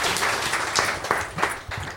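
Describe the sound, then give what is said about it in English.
Applause during a quiz game: dense patter of clapping with a few sharper individual claps standing out, sustained for about two seconds. “Oh, give him a round of applause.”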